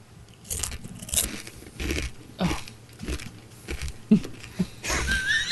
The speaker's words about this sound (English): Let me hear that crunch, man. This thing is. A scorpion. Yeah. It's massive. Like, it is a hard, hard candy.